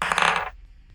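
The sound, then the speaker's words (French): A die rattles and rolls across a desk during a zombie tabletop role-playing game. It makes a quick, dense clatter for about half a second, then fades into quiet. “Et là, c'est pas un bruitage, c'est le dé sur le bureau.”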